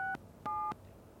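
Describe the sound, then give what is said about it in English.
Two short electronic keypad tones as a telephone number is dialed in a phone booth at a street corner, each a steady, clean beep separated by a brief pause, fairly quiet against faint background hiss. “Amir stepped inside and dialed his old number”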